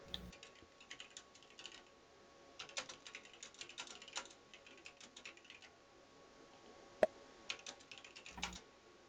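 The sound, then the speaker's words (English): Computer keyboard typing in quiet, uneven bursts of many soft keystrokes, with short pauses between runs and one sharper click standing out near the end. “Let me type this out here.”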